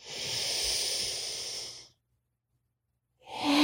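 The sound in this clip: A deep, slow inhale through the nose during a guided breathing exercise: a steady airy hiss lasting about two seconds, then silence before another breath begins.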